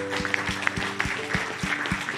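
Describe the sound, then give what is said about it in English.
A church audience gives a clap offering, clapping in a steady rhythm with sharp, evenly spaced beats over a dense wash of applause and sustained low tones underneath. “Let's give a clap offering to Jesus.”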